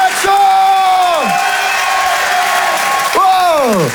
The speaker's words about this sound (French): Faites un maximum de bruit, s'il vous plaît, pour Romain Barreda.